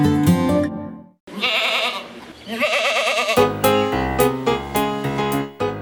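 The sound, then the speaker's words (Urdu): A goat bleats several times: loud, wavering, nasal cries with a strong quavering tone that come in a few bursts separated by short breaks, with no talk over them. “بکر عید ہو اور back ground میں بکرے کی آواز نہ ہو تو سچ بتائیے، کیا آپ کو اپنی عید ادھوری نہیں لگتی؟”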